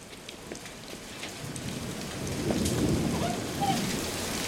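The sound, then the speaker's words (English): Heavy rain pelting down outdoors by a garage and a car, a dense steady hiss of drops that swells louder about halfway through and stays loud to the end. “The rain begins to pelt down.”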